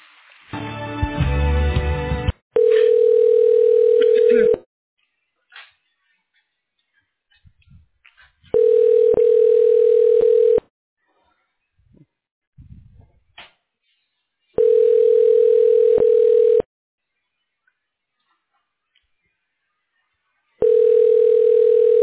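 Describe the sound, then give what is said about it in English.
Ringback tone of a telephone call being transferred to voicemail: after a short noisy passage, four steady mid-pitched ring tones, each about two seconds long, alternate with long silences. “I can transfer you to the voicemail.”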